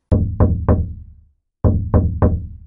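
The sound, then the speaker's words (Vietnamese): Knocking on an apartment door: six sharp, loud raps in two groups of three, with a short pause between the groups and each knock ringing briefly. “Gõ cửa nửa ngày trời, không ai trả lời.”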